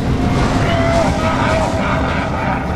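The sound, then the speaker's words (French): The Taron, a mechanical ram machine that supplies the town from a volcanic spring, runs with a loud, steady mechanical roar and a faint whining tone. “Oh, regardez, c'est le Taron. Il est en marche. Oh wow, c'est alors ça le fameux bélier mécanique qui nourrit la ville de Clougame de la source volcanique?”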